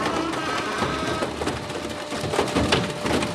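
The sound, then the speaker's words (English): A huge scrapyard machine in South Los Angeles crushes a Mazda car flat, producing a continuous loud, dense grinding and crunching of metal with scattered creaks and cracks throughout. “That's the sound of a Mazda being flattened into a metal pancake.”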